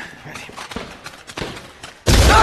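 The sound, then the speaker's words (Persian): A booby-trap explosion during combat in Aleppo erupts as a sudden, loud, roaring blast, following a stretch of quieter scattered thumps and rustling. “لعنتی تله انفجاری بود.”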